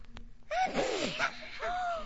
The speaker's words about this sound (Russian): Он чихнул, девочки.